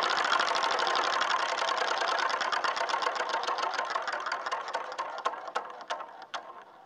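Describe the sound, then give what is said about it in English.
A game-show prize wheel spun hard clatters with rapid ratcheting clicks that gradually slow and spread apart as it loses speed, the ticks getting sparser toward the end. “Let's randomize it. Let's start it on 5. All right? Spin it hard.”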